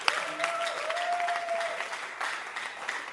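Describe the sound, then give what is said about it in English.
Audience applause at a church service, dense and steady clapping from many hands with a brief whistle-like tone rising above it, moderately loud throughout. “Clap your hands for Bishop Dagwood Mills.”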